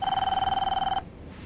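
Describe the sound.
A telephone rings in a house with a bright, rapidly trilling electronic bell, one sustained burst of fast pulses that cuts off abruptly, leaving quiet room tone.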